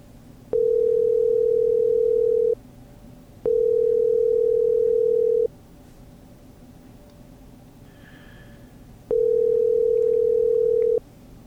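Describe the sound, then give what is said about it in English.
A telephone rings out while calling someone, three long steady tones of about two seconds each, broken by pauses, the third coming after a longer gap. “So let's dial her up here.”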